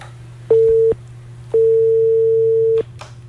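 A telephone busy or disconnect tone sounds after a call is cut off: two steady, mid-pitched beeps, the second much longer than the first, over a low constant hum.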